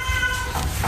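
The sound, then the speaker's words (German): A black one-year-old tomcat meows at an animal shelter, a single brief, drawn-out meow with a clear tonal quality over a faint background hum. “Das hier, was ihr gerade gehört habt, ist Lucifer. Lucifer ist ein schwarzer, einjähriger Kater”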